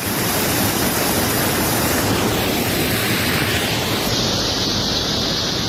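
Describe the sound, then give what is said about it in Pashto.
Water flows loudly and constantly from the Mazar Baba spring in Uruzgan, a cold, clear spring among green gardens, making a dense, steady rushing roar with no voices. “د شنو باغونو په مینځ کې د خورا یخي پاکي او سپینې اوبو په لرلو مشهوره د مزار بابا په نوم چینه”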